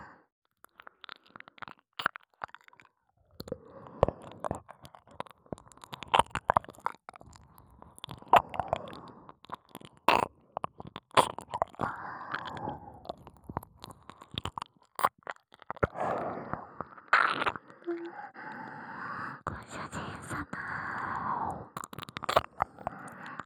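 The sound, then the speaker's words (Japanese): Wet ASMR ear-licking mouth sounds, soft and quiet: many irregular smacking clicks and slurping licks in a continuous stream, with no talking. “締めのお耳ペロペロはさせていただきますね。”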